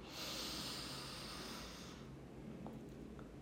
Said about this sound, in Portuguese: Então, inspira pelo nariz.